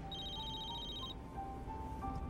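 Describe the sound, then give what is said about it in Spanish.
A telephone ringing with a call from a wife's workplace: faint, steady electronic tones, a high whine that cuts off halfway while a lower tone keeps sounding with slight pitch steps. “William dijo que recibió una llamada del trabajo de su esposa.”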